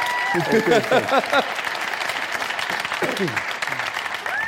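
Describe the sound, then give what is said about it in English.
A live audience applauds to welcome Neil Kinnock onto a show, with steady, dense clapping throughout and a voice speaking over it. “Please give a huge welcome to Neil Kinnock!”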